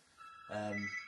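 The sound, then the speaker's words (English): Mobile phone ringing, a brief tonal ringtone burst of about half a second, fairly faint. “My phone has just went.”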